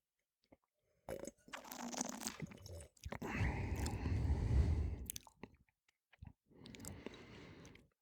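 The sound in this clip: Wine being sipped and tasted, a spring wine with a champagne-like character. Three bursts of airy slurping and mouth noise are separated by short pauses, with no talk.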